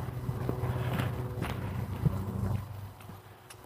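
Footsteps of a person walking, a few soft steps in an uneven rhythm over a low rumbling background.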